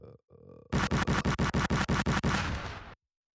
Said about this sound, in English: I'll give you a little gunshot real quick.